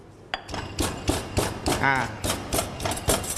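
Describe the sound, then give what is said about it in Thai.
Garlic is pounded into ground curry paste with a pestle, giving many sharp, knocking thuds in a steady, fairly quick rhythm, each strike crisp and moderately loud against a low background. “เครื่องแกงเราละเอียดได้ที่แล้วนะครับเดี๋ยวเราขออนุญาตใส่กระเทียมลงไปนะครับตำให้เป็นเนื้อเดียวกันนะครับ”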